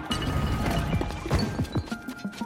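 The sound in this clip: Clattering clunks and knocks come from a player-built vehicle in Zelda: Tears of the Kingdom, a car that refuses to reverse. A busy, uneven run of hollow thuds rides over a low rumble.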